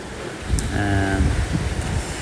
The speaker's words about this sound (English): The wind is a bit tumultuous. It's sometimes going very fast and sometimes nothing at all.